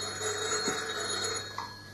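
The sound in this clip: A telephone rings during a party committee meeting, a steady high ringing tone that runs through the whole clip at a fairly low level, with no talk over it.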